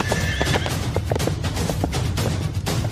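A horse whinnies over the quick, uneven clip-clop of its hooves, both fairly loud and continuous, with no talk.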